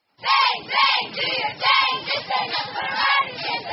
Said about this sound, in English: A football scrimmage for Roosevelt High School in Des Moines is a welcome back for Friday Night Lights, complete with cheerleaders and the Rough Riders marching band.